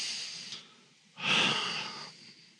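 Two slow, deep breaths taken to settle before a prayer. The first is a soft, short airy rush. After a brief pause comes a louder, longer, hissing breath that fades out, with no speech.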